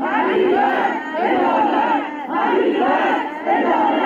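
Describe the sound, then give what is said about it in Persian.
Families of crash victims shout for justice at Imam Khomeini Airport, a loud crowd chanting in repeated surging phrases, with many raised voices rising and falling in unison across a few seconds. “همچنین خانواده‌های قربانیان این حادثه با در دست داشتن عکس قربانیان و شاخه‌های گل در فرودگاه امام فریاد دادخواهی سر دادند.”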